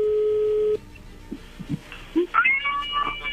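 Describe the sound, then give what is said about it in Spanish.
A telephone call is dialed and connects: a steady electronic tone plays for under a second, followed by a few soft clicks and then brief higher beeps. “No haga ruido, ya entra la llamada.”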